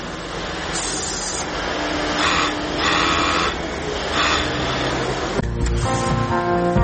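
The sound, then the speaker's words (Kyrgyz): Machinery hums and rattles steadily in a working sewing workshop in Bishkek. The mechanical whirring runs without a break, with a few brighter bursts and a shift in tone near the end, and no voices are heard. “Бишкектеги катардагы тигүү цехи. Иш жай баракат өз нугунда жүрүүдө.”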